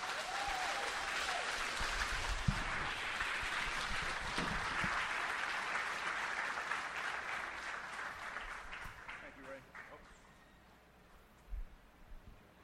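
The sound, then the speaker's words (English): Audience applause welcoming a guest speaker: steady, dense clapping from a crowd sustained for about ten seconds, then thinning and fading out, with a soft thump near the end. “Why don't we put our hands together and give Michael a warm Crossroads welcome.”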